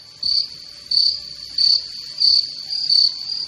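Crickets chirping: a steady, shrill high-pitched trill with louder pulses recurring at an even rhythm, heard alone without talk.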